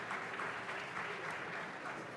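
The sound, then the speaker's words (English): Audience applause from a full house in Preston Bradley Hall at Chicago's Cultural Center after a live concert: steady, dense clapping that holds at an even level throughout. “Back on stage now, accepting the applause of this completely full house here at Preston Bradley Hall in Chicago's Cultural Center.”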